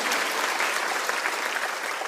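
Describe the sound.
Church audience clapping hands in praise of God during a Sunday sermon, bright and dense applause that stays steady and unbroken for the whole stretch, with no voice over it.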